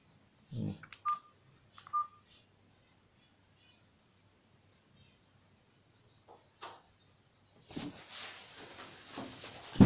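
Telephone keypad tones sound while a number is dialed, a few short, faint beeps close together near the start. A long quiet gap follows, then louder rustling noise builds toward the end.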